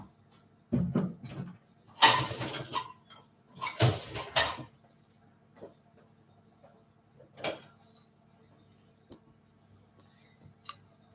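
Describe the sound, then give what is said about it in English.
Stew of mince, stock and winter vegetables is served into bowls, with a few short clinking and scraping bursts of utensil against crockery separated by quiet gaps. “And what we do with this one, just grab a bowl.”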